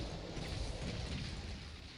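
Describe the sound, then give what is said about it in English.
Rocket explosions rumble through a video game battle in a dense, steady roar. No separate blasts stand out, and the noise stays at an even loudness throughout. “Lots of heavies, though. Plenty of fire. So we're going to retreat to behind the base, if we can. Lots of rockets going off around us.”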